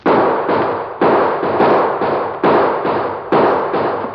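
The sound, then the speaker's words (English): Gunshots crack out in a Western shootout at a porch: many loud, sharp reports in an irregular volley, each ringing briefly before the next, with no voices. “Oh, slug caught me in the leg. The gun's empty.”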